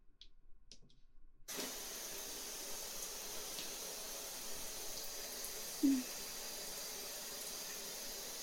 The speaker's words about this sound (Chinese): 洗澡，洗澡。